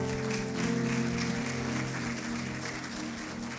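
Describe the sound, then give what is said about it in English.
A church audience applauding during a Sunday morning service: a dense, continuous wash of clapping at an even level, with a low sustained hum underneath throughout. “We want to welcome our online congregation. If you'll give them a big hand, please.”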